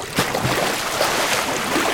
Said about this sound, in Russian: Пошли. Тут не глубоко, прибой не сильный.